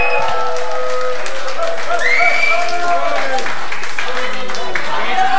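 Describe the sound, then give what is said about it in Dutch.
Loud audience applause with crowd noise, a thick, steady roar of clapping throughout, while voices shout and cheer over it. “Applaus voor jezelf!”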